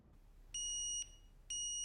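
A digital alarm clock goes off in the morning with two long, steady, high-pitched electronic beeps of equal pitch. The beeps are evenly spaced and sound clearly over a faint background hiss.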